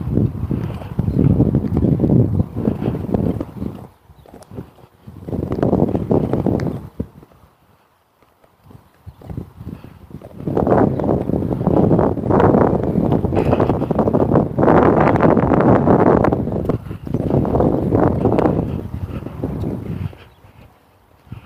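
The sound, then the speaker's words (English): Wind buffets the microphone outdoors on a breezy morning among trees, in loud, low, rumbling gusts that come and go, with a near-silent lull partway through. “Oh, that wind. It's just a touch of breeze. And it's right in my face.”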